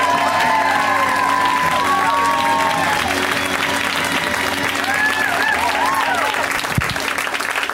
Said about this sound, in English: Let's hear it right now for Sashir Zameda. Give it up for Sashir.